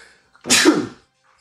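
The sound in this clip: A single loud sneeze, sharp and breathy, heard alone against near silence.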